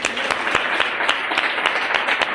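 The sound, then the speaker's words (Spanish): Audience applause for a participant at a live quiz-style event: a dense, steady patter of many hands clapping throughout, with a few sharper individual claps standing out from the mass. “Bien, un aplauso para Arturo.”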